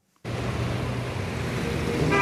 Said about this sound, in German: Am Technologiezentrum Dortmund, unweit der Technischen Universität, rauscht der Verkehr vorbei.